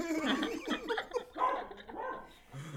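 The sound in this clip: A dog barks and yips in a few quick, fairly loud bursts, with short gaps between the calls.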